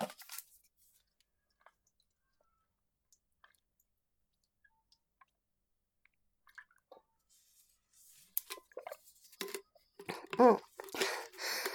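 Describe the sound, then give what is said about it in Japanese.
Water being drunk: a few tiny mouth clicks in near silence, then a run of wet gulps and swallows that grows louder toward the end. “じゃあまずはお水飲みます。”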